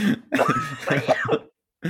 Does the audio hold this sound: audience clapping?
no